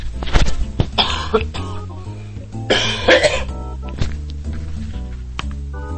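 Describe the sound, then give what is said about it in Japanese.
A coughing fit: repeated harsh coughs and throat clearing in bursts, strongest at the start and again midway, over a low background hum. “もうね、なんか今日はね、すごくむせる日ですね。”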